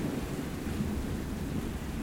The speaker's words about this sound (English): Listen to the rain. Listen to the rain.